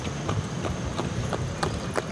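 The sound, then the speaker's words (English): Hooves of an Amish horse and buggy clip-clop past a roadside farm stand in Lancaster County, a steady, regular beat of hoof strikes over constant low background noise. “Every few minutes, a horse and buggy passes by.”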